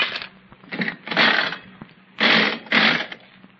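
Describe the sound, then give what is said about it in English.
Nickel slot machine being played: mechanical whirring and ratcheting clatter in five separate bursts of spinning reels, each starting abruptly and stopping, with quiet gaps in between. “Oh, I don't think it's possible to win on these slot machines.”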